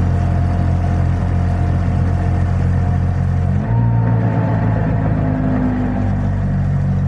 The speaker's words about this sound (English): there's a choke down here, so I'm going to sort of ease the choke out a little bit and see if we can crank it going.